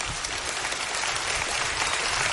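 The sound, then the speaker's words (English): A church audience claps during a sermon, a steady, fairly faint patter of many hands heard alone for about two seconds. “Hey, I'm glad you clapped for that.”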